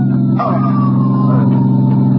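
An ambulance siren in a film scene: a wail sliding downward in pitch above a loud, steady engine drone.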